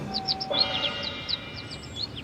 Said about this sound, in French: Au même moment, là, sur le sol, il découvrit un oiseau qui avait la jambe blessée.